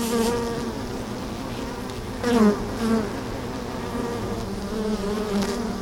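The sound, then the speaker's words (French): Bees buzz around beehives kept by a beekeeper at the Arras citadel, a steady insect drone that runs throughout with a few brief louder swells as individual bees pass close. “Donc ici, tu as un certain nombre de ruches.”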